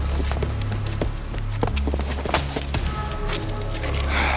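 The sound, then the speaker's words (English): Hurried footsteps of a woman running away while holding groceries, many quick uneven impacts in a dense, continuous stream. “Veronica runs away from the three men, holding on to her groceries. Not used to running or evading people this way, Veronica slips a few times.”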